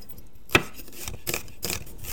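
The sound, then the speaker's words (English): A knife chopping onion and dicing garlic in a kitchen while soup is being prepared, with a few sharp cuts on a board. The first cut is the loudest, and softer taps follow at uneven intervals. “we are chopping up our onion and dicing our garlic as we wait.”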